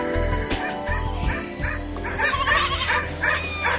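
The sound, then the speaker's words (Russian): A dog barking: repeated high yips and short barks mixed with whimpering whines, loud and continuous. “«Гагита, уйми проклятую собаку,”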